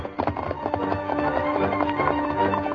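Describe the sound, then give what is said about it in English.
A horse gallops with rapid, steady hoofbeats that run the whole way through, mixed with other sustained tonal sound at moderate loudness. “Though Miller had a slight head start and was riding into Sandy Valley, Silver, his great muscles gleaming in the sunlight, sprang forward at his master's call and raced after the fleeing crook.”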